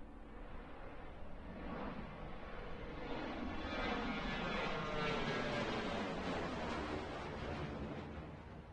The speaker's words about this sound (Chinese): 经过两个小时的飞行，曾浩终于到达了海口机场。